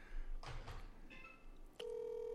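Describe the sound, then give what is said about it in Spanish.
Telephone line ringing, faint and low in level: a few brief tonal blips give way to a steady, sustained mid-pitched tone that holds to the end. “Ahí le está sonando ya la línea telefónica.”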